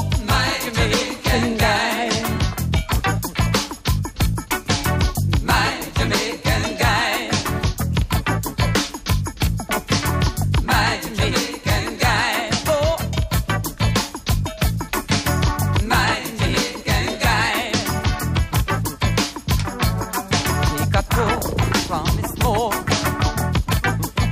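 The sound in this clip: A pop song plays loud and dense throughout, with a steady, driving beat, regular percussive hits and a full band texture.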